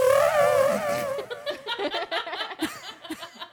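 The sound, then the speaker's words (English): A voice imitating fart noises with an echo effect: a sustained buzzing tone gives way to a run of short, sputtering bursts of uneven rhythm. “Just make fart noises.”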